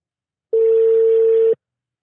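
A telephone call rings out as a single steady ringback tone, one clean mid-pitched beep lasting about a second before cutting off into silence.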